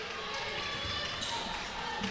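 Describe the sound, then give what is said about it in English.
A basketball is dribbled on the court during a high school game, a series of dull rhythmic bounces beneath continuous play-by-play commentary and background crowd noise. “Barley keeps the dribble alive.”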